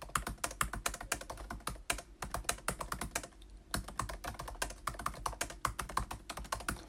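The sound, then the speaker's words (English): Rapid typing on the previous-generation keyboard of a MacBook Pro 17, a dense run of crisp key clicks at an uneven rhythm with a brief pause midway, the keys sounding alone. “this is me typing on the MacBook Pro 17. So this is with the previous keyboard that everybody didn't like, at least for the last 5 years. So if I start typing now,”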